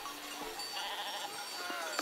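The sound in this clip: Sheep bleating from a flock of 900 being driven down from mountain pasture in late September, a few wavering bleats rising over a steady, noisy outdoor background.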